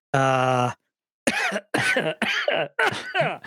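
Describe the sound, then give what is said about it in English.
A man coughs and chokes: a strained, drawn-out voiced groan comes first, then after a pause a run of harsh, rasping coughs in uneven bursts, loud and alone. “excuse me. He's a little choking there.”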